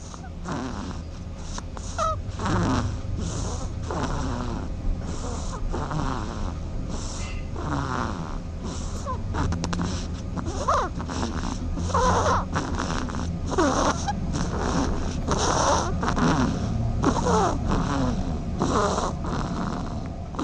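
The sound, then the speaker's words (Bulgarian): Snoring attributed to a dormouse: a steady run of breathy, snorting pulses that repeat many times in an even rhythm, alone and without talk. “Аз предлагам сега да чуем един сънливец по радиото, хъркащ сънливец.”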